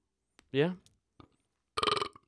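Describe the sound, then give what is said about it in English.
A loud, deep belch lasting about a quarter second, recorded in a new studio, followed after a pause by a short burst of speech. “You christened the new studio with that big old belch.”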